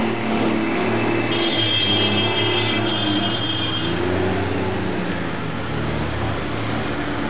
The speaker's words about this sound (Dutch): Alle ME-wagens rijden nu richting van het kraakpand en de vuren. Met voorop een grote gepantserde ME-wagen.